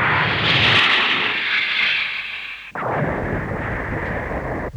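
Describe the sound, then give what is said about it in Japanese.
A roaring blast from a missile fired horizontally: a loud, broad rushing roar weakens briefly, then cuts in again as a sustained harsh hiss, with no voices. “ミサイルです！ ミサイル、水平発射！”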